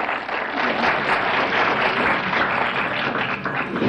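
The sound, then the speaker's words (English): An audience applauds to welcome a singer onto the stage, producing a steady, dense wash of clapping that holds at an even level for about four seconds. “Let's give him a great big hand and let's welcome Betsy.”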